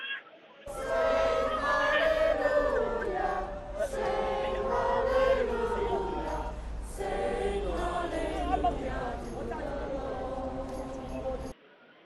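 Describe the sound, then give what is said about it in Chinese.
A crowd sings hymns together from the packed stands at a prayer rally at Southorn Playground, Hong Kong. Sustained, melodic massed voices hold a steady level for about eleven seconds, with a few brief dips between phrases. “修頓球場的看台已經是坐滿了與會的人士，去唱聖詩和高呼香港人加油等的口號。那聽下當時祈禱會人士唱聖詩的現場情況。”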